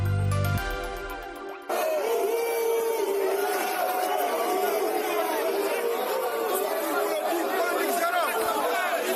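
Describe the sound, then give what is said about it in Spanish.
Crowd noise from serious riots in Lavapiés, central Madrid: a dense, continuous roar of many shouting voices and babble, steady and loud throughout. “Este es el sonido de aquellos graves disturbios que se registraron hace solo unos meses en el madrileño barrio de Lavapiés, en pleno centro de Madrid. Fue una auténtica batalla campal.”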